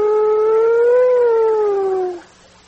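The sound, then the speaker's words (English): A voice imitating a police siren gives one sustained wailing tone that rises slightly, then falls and fades out. “Have you ever heard those sirens coming for you?”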